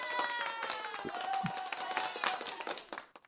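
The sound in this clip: Applause welcoming a guest onto a talk show: dense, rapid clapping that runs steadily for about three seconds under a voice, then thins out and fades at the end.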